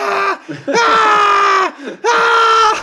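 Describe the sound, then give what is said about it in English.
Screaming in the style of the stock horror-movie scream effect: a short loud cry, then two long, high, steady-pitched screams separated by brief gaps. “put audio loops of like the stock scream from the movie Psycho”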